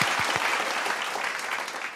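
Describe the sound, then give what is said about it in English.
A woman clapping for herself: a few crisp separate claps at the start quickly merge into a dense, continuous wash of applause that stays loud and even before easing slightly at the end. “I'll clap for myself.”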